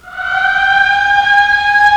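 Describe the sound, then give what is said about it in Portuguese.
Siren signalling the start of the workday: a steady, sustained wailing tone swells up in the first moment and then holds at an even, loud pitch throughout, with no voices. “Dentro de instantes nós teremos aí tocando a sirene para mais uma jornada, né? Dando um sinal.”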